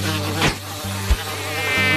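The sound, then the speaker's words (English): Buzzing of a cloud of tiny tropical bugs swarming around in darkness, a steady droning hum rich in overtones that continues throughout at a moderate, even level. “everywhere Luke walked, he was surrounded by a cloud of tiny tropical bugs, flying all around his face, getting in his hair, and crawling on his arms.”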